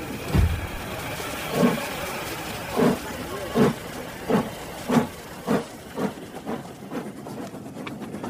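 A train at a railway station gives off a long run of rhythmic steam-like chuffs over a steady hiss. The puffs come closer together and grow softer as they go.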